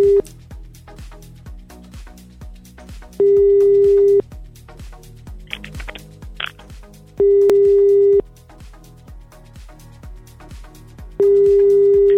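A phone rings unanswered with a ringback tone: three long, steady, mid-pitched tones, evenly spaced about three seconds apart, over background music with a beat.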